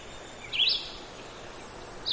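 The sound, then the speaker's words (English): A red-eyed vireo sings a short, high chirped phrase, faint over steady hiss, and a second note begins just at the end. “That's actually another very common town bird, as well as a common woods bird. It's called a red-eyed vireo.”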